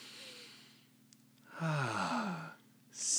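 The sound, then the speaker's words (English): Deep breath through the nose to clear the nasal passages: a loud, airy rush of about a second with a falling, sigh-like voiced tone, followed by quiet and then another short breath starting at the end. “let's take a breath, clear those nasal passages.”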